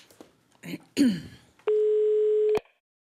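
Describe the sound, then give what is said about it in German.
A telephone ringing tone sounds as a call is placed, one steady mid-pitched buzz lasting about a second after a few brief, soft low noises. “Wir rufen Christians damalige Freundin Beate an.”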